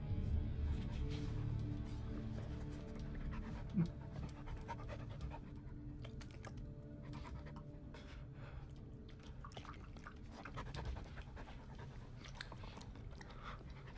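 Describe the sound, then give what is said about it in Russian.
A dog pants steadily in quick, rhythmic breaths while licking with wet, smacking mouth sounds, faint and quiet throughout, in a ship's corridor aboard an icebreaker. “К нему подошел пес и облизывает его доброй мордочкой.”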